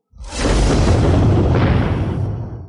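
A massive explosion erupts as a deep, roaring blast that swells quickly, holds loud for about two seconds, then tails off.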